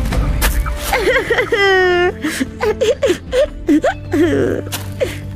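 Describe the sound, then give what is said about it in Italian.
A woman cries in wavering whimpers and wails, with a long sustained high wail near the middle and choppy sobbing bursts around it, loud and close. “che succede? Perché piangi?”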